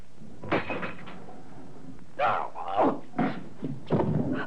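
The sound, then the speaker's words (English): A window blind being pulled down gives a few short bursts of clattering and rattling, separated by brief pauses. “please pull down the blind, because if it blows up during the night, it'll flap out the window and wake us, like last night”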